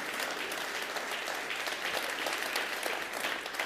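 Faint audience applause: dense, steady clapping sustained evenly throughout, with no voices standing out.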